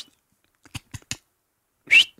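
A single short whistle from a person hidden in a timber pocket on a cold ridge, signalling their presence to someone walking nearby; one bright, slightly rising tone, loud and alone, with a few soft thuds before it.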